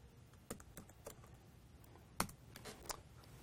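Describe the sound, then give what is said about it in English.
Faint typing of a password on a computer keyboard, made up of several irregular, light key clicks with one slightly sharper stroke midway. “Type in my password again.”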